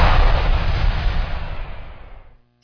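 Big Diwali firecrackers going off as one loud, booming blast with heavy low rumble that steadily decays over about two seconds into silence.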